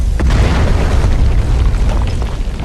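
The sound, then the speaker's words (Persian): Claymore mines detonating in a loud, sustained explosive roar, heavy low rumble filling the whole stretch without a break. “آلفا دو کلیمورا رو منفجر میکنیم.”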